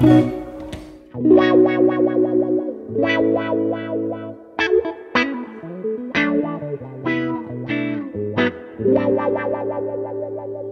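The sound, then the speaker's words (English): A reissue Clyde McCoy Crybaby wah pedal on electric guitar plays a rhythmic, funky phrase of many picked notes and chords, with the tone sweeping up and down between short gaps. “This is the reissue Clyde McCoy Crybaby. Sure. Okay. It's a really good one. This is what it sounds like.”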